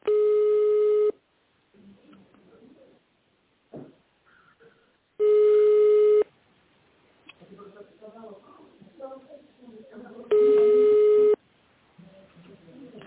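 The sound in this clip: Three long, steady telephone line tones, each about a second, repeat at even intervals while a caller waits for a company to answer, with quieter voices talking in the gaps between them.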